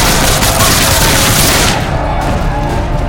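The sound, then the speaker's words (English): Heavy gunfire in a frontier battle at a fort: a loud, dense barrage of many overlapping shots that rolls on without pause and turns somewhat duller near the end. “Get my gun and move it! Fire! Shoot them all!”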